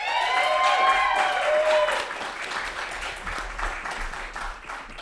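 A live audience at a film review show applauds to welcome a guest to the stage: loud, dense clapping from many people for about two seconds, then easing to a slightly quieter, steady patter.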